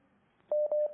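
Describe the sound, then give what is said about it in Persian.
Two short touch-tone telephone beeps, steady and evenly pitched, sound back to back as a phone line connects for a viewer calling in. “البته تماس تلفنی هم داریم، درسته دوستان خوبم؟ بله، ارتباطتون برقرار با بیننده خوبمون؟”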